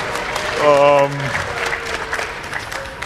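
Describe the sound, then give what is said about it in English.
Audience clapping at a gathering, a continuous patter of hands under a held voice near the start, with some talking over the later part. “Don't clap. To hell with it.”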